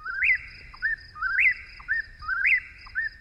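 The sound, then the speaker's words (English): Whip-poor-will song: three loud, clear whistled phrases in even rhythm, each opening with a sharp upward-swooping note and followed by a shorter, lower note. “So the song of the whippoorwill in this modern recording,”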